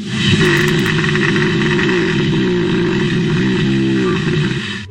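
Deep, rumbling growl attributed to hibernating bears beneath a house. It is a loud, continuous roar with a rough, throaty texture that holds steady for about five seconds, wavers slightly in pitch and has no voices.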